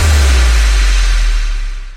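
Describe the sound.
A car drives off, its engine giving a loud, deep, steady rumble that fades toward the end.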